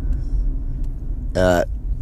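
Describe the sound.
Low, steady rumble inside a parked car fills the whole stretch, with one short burst of voice partway through.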